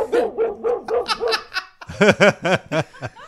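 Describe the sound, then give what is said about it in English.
A dog barks in two runs of short, rhythmic yaps. The first run is moderate, and after a brief pause the second comes louder and sharper, each bark pitched in a rising-then-falling arc. “Sit, Robba, sit. Good dog.”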